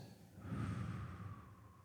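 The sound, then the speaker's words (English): A single deep breath in during a guided prayer. It is a soft, airy rush of inhaled air that swells and then fades, heard alone. “Deep breath in.”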